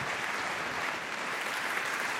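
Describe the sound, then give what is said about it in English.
Audience applause at a science talk, a steady, dense wash of clapping that stays fairly soft and even throughout, with no voices over it. “Please give a very warm applause.”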